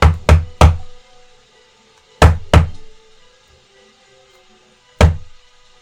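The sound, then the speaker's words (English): Someone knocks on a door with sharp, hollow raps: three quick knocks, then two, then a final single knock after a pause. “there is a knock at the door.”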